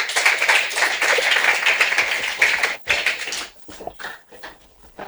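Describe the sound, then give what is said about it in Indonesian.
An audience claps for a doctor about to speak. Dense, lively clapping runs for nearly three seconds, then thins out into a few scattered claps before dying away. “Tepuk tangan untuk Ibu Dokter.”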